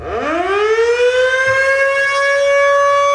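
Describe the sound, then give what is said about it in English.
A modern air raid siren built to a World War II design winds up quickly from a low growl to a loud, steady, rich wail and holds it alone. “so that sound is from a modern version of a siren that's still being made today, but the design goes back more than 80 years.”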